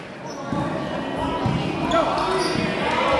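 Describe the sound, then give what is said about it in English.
A basketball dribbled on a court during a varsity game, heard as steady repeated bounces with voices in the background. “just kind of dribbling around”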